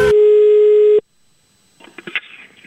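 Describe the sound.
A telephone line tone sounds while someone calls a person back: one loud, steady tone lasting about a second stops abruptly. After a short silence come a few uneven clicks and handling noises.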